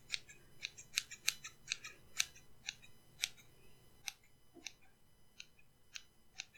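Sharp scissors snip through hair in a rapid series of crisp, bright clicks, many cuts in an uneven rhythm, quiet overall.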